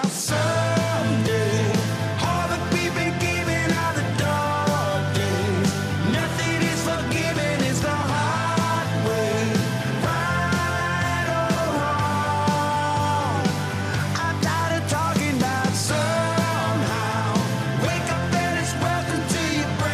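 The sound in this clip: A pop-country rock song with a full band plays loud and steady throughout, with sustained vocal lines over a dense, unbroken backing.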